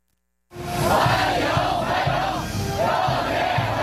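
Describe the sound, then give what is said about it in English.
Chinese teenagers chant a welcome in unison, waving flags to greet a visiting president arriving in Beijing. A loud, sustained crowd chant begins after a brief silence and carries on with rhythmic, pulsing voices to the end. “And that's the sound of Chinese teenagers chanting welcome,”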